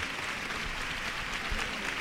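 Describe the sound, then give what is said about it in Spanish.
Applause pours from balconies, terraces and the street for a religious procession of the Virgen de los Dolores, a dense, steady wash of clapping that holds at an even loudness throughout. “Aplauso a rabiar desde los balcones, desde las terrazas, desde las azoteas, desde el suelo, para la Virgen de los Dolores, que ya está aquí a la altura de Afán de Rivera.”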